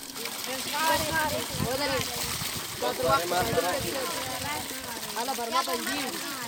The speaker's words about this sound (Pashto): دا د هغه ماشومانو غږونه دي چې د اوبو له برمې څخه د اوبو لوښي ډکوي.